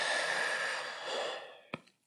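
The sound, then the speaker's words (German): A slow exhale through a slightly open mouth during a guided breathing exercise: a soft, airy hiss that gradually fades away, then a single brief click near the end. “und dann durch den leicht geöffneten Mund wieder ausatmen”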